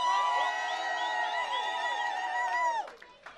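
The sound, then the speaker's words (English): Crowd at a Chicago house music event, Urban's House, whooping and cheering in wavering high calls over a steady roar, fairly faint overall, then dropping off sharply near the end. “Y'all make some motherfucking noise, Chicago.”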